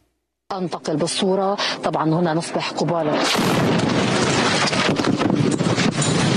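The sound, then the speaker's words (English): Israeli artillery fire striking the Lebanese border village of Yarun during a live television broadcast: a voice talks at first, then a sudden loud, sustained roar of blast noise takes over and continues to the end. “Monday, several journalists came under artillery fire from Israel as they reported from the Lebanese border village of Yarun. The attack wounded an Al Jazeera cameraman and damaged equipment. A Lebanese television crew was broadcasting live during the attack.”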